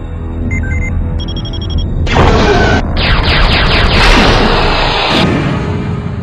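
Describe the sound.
A science-fiction space weapon fires and explodes. Short electronic beeps lead into a sudden loud blast, then a long roaring rush with sweeping tones that ends abruptly.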